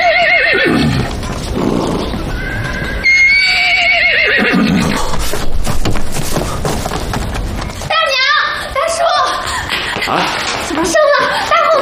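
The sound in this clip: A mare neighs and whinnies repeatedly while foaling, loud, shrill cries mixed with voices talking over them.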